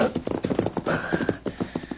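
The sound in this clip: A horse's hooves clip-clop in a quick, uneven rhythm of many short, sharp hoofbeats as the rider reins it up near a shack.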